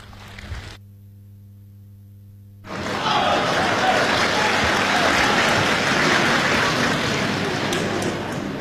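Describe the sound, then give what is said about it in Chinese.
Applause from a live audience at a crosstalk comedy show: a brief sound, then near silence, then clapping that swells in and continues at a moderate, even level until the end. “谢谢，谢谢，谢谢现场所有热情的观众，谢谢您这么稀稀拉拉的掌声，谢谢大家。”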